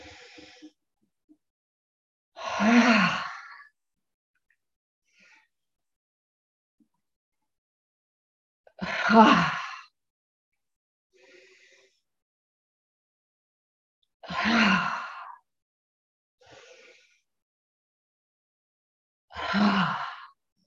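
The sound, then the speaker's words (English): Deep, breathy exhalations come from a guided exercise session. Four loud breaths out are spaced several seconds apart, with softer breath sounds between them. “we breathe out as we release. So breathe in.”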